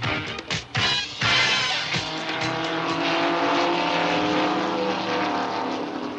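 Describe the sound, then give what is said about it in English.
Stock race cars roar around the speedway at Daytona, a dense, loud, continuous engine drone with strong harmonic whine, a few sharper bursts early on, and then a steady sustained roar of many cars. “The sounds you hear in the background are the Midwestern stars of the Automobile Racing Club of America as they make you their annual trek to Daytona Beach”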